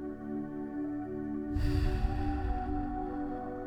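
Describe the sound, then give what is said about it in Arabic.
A slow exhale through the mouth during a breathing exercise, a soft, airy rush of breath that starts about halfway in and continues steadily, heard over sustained musical tones. “بعدين رح نعمل حركة اللي بنطلع النفس بكل هدوء عن طريق الفم اسمه زفير”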